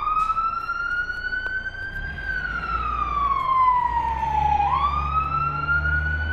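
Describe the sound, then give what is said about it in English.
A fire truck passes with its siren wailing: the tone climbs slightly, sweeps down, then jumps sharply back up, loud over a low engine rumble. “That's just a fire truck going by.”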